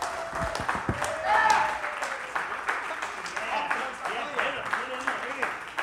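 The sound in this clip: Audience applause with scattered cheers for a guest welcomed onto the stage at a live show, a dense, steady wash of clapping that holds for several seconds alongside voices.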